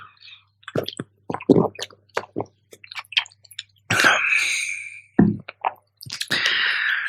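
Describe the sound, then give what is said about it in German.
Drinking sounds from a person pausing mid-talk: a string of wet gulps, swallows and small mouth clicks, broken by a couple of longer breathy exhales, with no speech. “Sekunde, ich muss mal kurz was trinken.”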